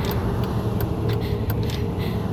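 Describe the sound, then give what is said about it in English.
Car driving along a road, a steady low rumbling drone of engine and tyres that holds at an even level throughout, with light ticking sounds above it. “Just drive us back to the hotel.”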